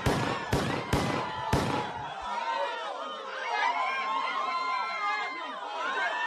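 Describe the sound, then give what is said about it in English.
Archival recording of gunshots fired at 2:27 p.m. in an assassination attempt on a U.S. president: a quick run of several sharp, loud cracks over about two seconds, followed by agitated crowd voices and shouting. “That script got jettisoned at 2:27 p.m. when John Hinckley opened fire with those six shots.”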